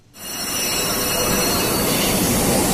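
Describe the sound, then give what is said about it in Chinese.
A Fuxing high-speed train to Changsha South pulls out of platform 15 at Beijing South station. A loud, broad rushing roar swells quickly in the first half second and then holds steady and dense to the end. “开往长沙南的高83次复兴号高铁列车从北京南站15号站台驶出”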